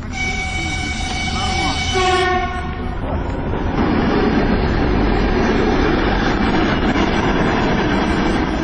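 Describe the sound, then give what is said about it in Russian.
An electric train departs from the second track of a station platform. A steady tonal signal sounds for the first few seconds, then a loud, continuous rolling rumble carries through to the end. “По второму пути отправляется резервный электропоезд.”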